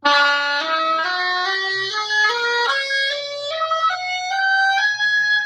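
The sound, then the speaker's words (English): An unfinished reed played on the oboe: a loud, reedy run of held notes, mostly stepping upward, sounding flat and out of tune. “is going to sound like this on the oboe.”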